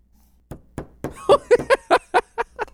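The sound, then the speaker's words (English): A donut tapped hard on a desk gives about ten dull, hollow knocks in quick, fairly even succession, each a short, firm thud. “The donut? Yeah, tap it on your desk and put your microphone down there.”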